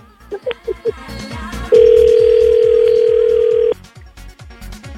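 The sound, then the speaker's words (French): An outgoing telephone call plays four short, quick beeps, then a single loud, steady ringing tone that holds for about two seconds before cutting off. Faint low sounds sit beneath it. “Bon, ça sonne. Je te laisse lui parler directement.”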